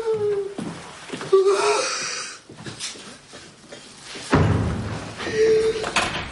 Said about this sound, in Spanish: Lo sueltan y cae al suelo.